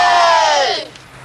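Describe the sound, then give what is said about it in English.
A cheer for the Bears baseball team rings out as one loud shouted burst whose pitch slides downward before cutting off, leaving quiet. “Come on, let's give him a cheer. Come on. Ready? Okay. 2, 4, 6, 8. Who do we appreciate? Bears!”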